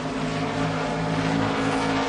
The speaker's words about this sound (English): Stand in the infield and watch the cars pass. They approach from the right at 120 miles an hour.